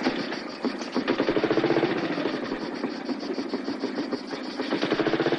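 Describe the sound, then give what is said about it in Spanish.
Motorcycle with a sidecar riding along a road, its engine giving a steady, rhythmic putter that holds at an even loudness throughout. “Después Andrés y Teresa circulan por la carretera en la moto con Sidecar.”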